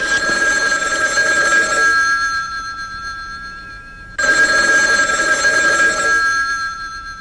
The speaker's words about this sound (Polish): Na całe szczęście dzwoni do nas nasz zagadkowy słuchacz.